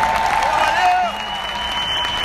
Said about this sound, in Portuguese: Aplausos pro Gigi, por favor.